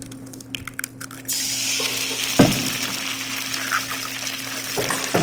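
An egg cracked into a hot pan, with a few light taps first. Then a loud, steady sizzle suddenly starts and carries on to the end, broken once by a sharp knock.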